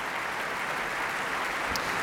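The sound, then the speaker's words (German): Applause from the audience erupts mid-performance at a Munich opera staging, a dense, steady wash of many hands clapping at an even level throughout, with no voices standing out. “Wobei der Zwischenapplaus ja doch gewisse Schlüsse ziehen lässt.”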